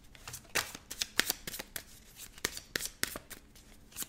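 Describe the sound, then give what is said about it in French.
Tarot cards are shuffled and drawn during a card reading: many quiet, crisp papery flicks and snaps in an irregular rhythm, some sharper than others. “Tu veux que je tire maintenant Je vais tirer maintenant une carte là-dessus si tu veux.”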